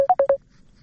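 A telephone number being dialled on a keypad: four short, quick beeping tones in an even rhythm, then silence.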